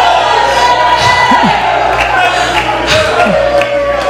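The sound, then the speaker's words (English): Church audience shouting and cheering together during a service, a dense, continuous crowd roar of raised voices at steady loudness throughout. “Oh, somebody shout to the Lord. Raise your hand and shout again.”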